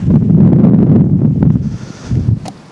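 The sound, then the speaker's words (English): Strong outdoor wind blasts into the microphone as a deep, loud buffeting rumble that surges and dips unevenly, with a brief lighter rustle near the end. “Wind is doing my head in. I'm sure it's doing your head in.”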